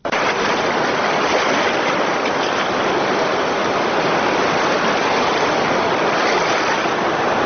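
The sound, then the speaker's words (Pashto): Rushing floodwater of the swollen Kunar River makes a dense, unbroken roar that stays loud and steady for the whole stretch, with no voices. “د کونړ سیند بیا چپان شو.”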